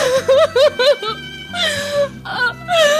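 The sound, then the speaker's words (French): A woman crying: several short, high, wavering sobs come in quick bursts, then give way to longer drawn-out moaning wails. “Oui, nous vous écoutons pleurer.”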